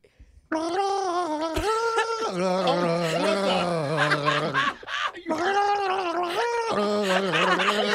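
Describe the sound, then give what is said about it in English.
A person gargles while singing a slow Christmas song, the melody bubbling and warbling through the water. The singing is loud and continuous, with a brief break before it resumes. “slow songs and gargling don't go together”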